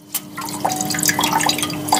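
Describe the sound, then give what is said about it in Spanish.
An apple is rinsed with ultrapure water before lab analysis. A few light, bright drips and small splashes sound over a low, steady hum. “Este lavado de la manzana antes del análisis se realiza con agua ultra pura que no contiene ningún rastro de plástico.”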